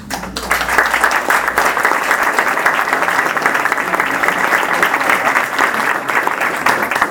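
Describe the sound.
Sustained applause from an audience at the end of a talk: dense, even clapping that holds steady at full strength for the whole stretch, with no voices on top.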